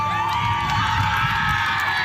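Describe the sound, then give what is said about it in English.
Team Manitoba, a women's baseball team at the national championship in Winnipeg, cheers and whoops after scoring a home run, high excited voices in one continuous burst. “Team Manitoba erupting in cheers after scoring a home run.”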